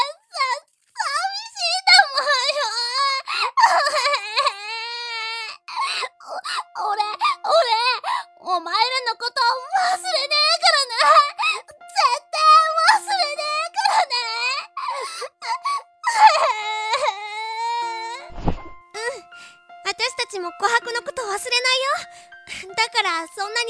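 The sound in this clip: A furry pet cries and whimpers without pause: many loud, high, wavering wails and whines rise and fall in pitch in an almost unbroken stream, with a brief dull thump near the end.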